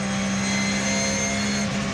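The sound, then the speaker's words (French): Engine of a 560-horsepower car running hard at about 210 km/h, a continuous loud drone with a steady low hum beneath a broad roar that holds an even level throughout. “Je peux dire que le moteur il est plein. Les 560 chevaux, on les sent bien.”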